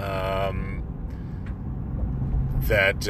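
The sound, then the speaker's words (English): Road traffic rumbles steadily and low while driving, an even engine-and-road drone that stays under someone talking throughout. “holy, sorry, traffic, man, everyone's so nuts these days.”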